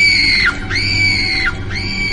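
A person screams in anger in three long, loud, high-pitched cries. Each cry holds steady and then drops in pitch as it breaks off, and the first is already underway at the start.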